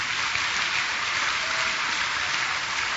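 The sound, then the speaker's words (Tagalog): Congregation applause offered as a clap offering to God during a church service: a dense, even roar of many clapping hands, sustained without a break. “He deserves the best clap offering. Pwede po bang palakpakan natin ang Panginoon?”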